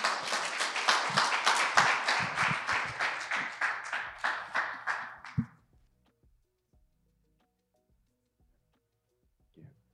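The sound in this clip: Audience applause at a church service welcoming a speaker to the stage. A loud run of clapping in a fairly regular pulse lasts several seconds, then cuts off into near silence broken by a few faint knocks.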